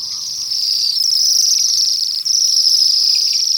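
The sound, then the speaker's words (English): A flock of hundreds of Bohemian waxwings calls in winter around apple trees and a poplar. Their thin, high-pitched trilling blends into a continuous, loud, steady shimmer throughout, with no voices. “These are Bohemian waxwings. Occasional visitors during the winter, down from their nesting grounds in the boreal forests of the north.”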